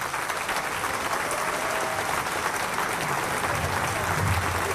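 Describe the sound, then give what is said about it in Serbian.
Thunderous applause fills a packed summer stage at a film festival opening in Niš. Dense, even clapping keeps a steady loudness from start to finish, with no single voice standing out. “Prepuna letnja pozornica pozdravila je gromoglasnim aplauzom našu filmsku i muzičku legendu Snežanu Savić, koja je otvorila ovaj festival.”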